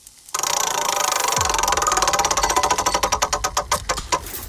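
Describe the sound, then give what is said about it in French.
Rapid ratcheting clicks of a spun prize wheel start abruptly, loud and dense, then gradually spread out and slow toward the end, with no talk over them. “C'est parti, elle va nous dire directement ce qui s'affiche sur cette roue. Et on la fait tourner.”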